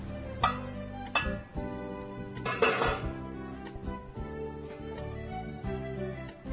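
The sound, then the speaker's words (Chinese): Metallic clanks and clinks as the lid comes off a steamer pot on a kitchen stove, after the gas is turned off, with steamed eggs inside. A few sharp clatters sound, then lighter rattles follow. “好，时间到了哦，我们把这个蒸锅打开来哈，瓦斯关掉。”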